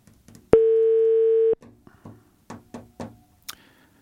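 Ringback tone of an unanswered outgoing phone call: one long, steady, loud tone lasting about a second, followed by a few soft clicks and taps.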